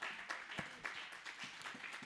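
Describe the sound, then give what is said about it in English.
An audience at a Sunday church service claps hands together in a faint, rhythmic beat, with evenly spaced claps repeating about every third of a second. “Let's clap hands for Jesus.”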